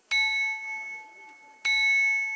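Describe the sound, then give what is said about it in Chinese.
A handmade porcelain bowl is struck twice, each hit ringing out like a bell with a bright, sustained tone that slowly fades before the second strike. “我们刚刚敲击那碗的有钟声，这个碗还会唱歌的”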